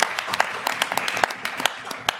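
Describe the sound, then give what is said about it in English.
Audience applause at an LSE election night event, a lively crowd clapping with many quick, bright hand claps in an uneven patter that holds steady throughout. “Big round of applause.”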